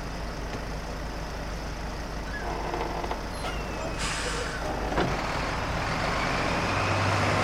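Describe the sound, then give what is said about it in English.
A bus pulling away from a feed-and-seed store in Montana: a continuous, broad engine drone with a short hiss of air brakes midway and a low rumble that grows toward the end. “The bus pulls away.”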